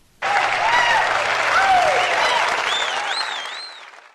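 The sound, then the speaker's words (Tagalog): A crowd breaks into applause on cue at the start of a Saturday talk program. The clapping begins abruptly, holds loud and steady for about four seconds, then eases slightly toward the end. “Marami po tayong pag-uusapan ngayon, kaya dapat ay palakpakan muna.”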